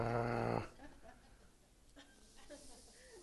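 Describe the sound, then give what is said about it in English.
A voice imitates an animal growling at being groomed for a toenail clipping: a short, loud, buzzy growl lasting about half a second, followed by quieter breathy, hissing noises. “nor is it fun for the animals when you groom them. They growl, I'm going to cut your toenails. They go,”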